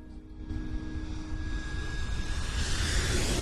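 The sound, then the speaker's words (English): An aircraft on the runway at Fiumicino Airport gives a steady, loud engine roar with a thin tonal whine running through it. A brighter rushing hiss builds toward the end. “Then, daytime, and the runway of Fiumicino Airport.”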